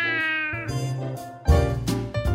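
A cat meows in a few drawn-out, strongly tonal cries, loud and clear on its own with no talk.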